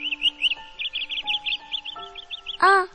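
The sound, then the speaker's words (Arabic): Bird chirping from a bird taken as a good omen: many quick, high chirps in a lively, uneven run, ending with a louder, sweeping call. “هذا طير فال الخير تشوفيه؟”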